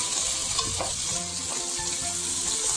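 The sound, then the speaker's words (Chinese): Pork belly sizzles and crackles in a pan as both sides brown and the fat renders out. The frying makes a steady, continuous hiss with no talk. “稍微把两边煎黄，那你会感觉到闻到这个肉香味的时候呢，大概就可以了哈，也不要煎得太过硬哈”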